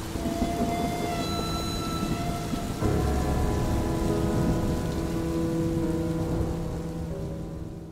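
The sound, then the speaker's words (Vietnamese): Heavy rain pours down outside, a loud, steady wash of noise with a low rumble beneath and faint sustained tones running through it, slightly softening toward the end. “Hoài Anh khẽ bấm tắt đi, dương mắt nhìn ra bên ngoài trời mưa ầm ầm”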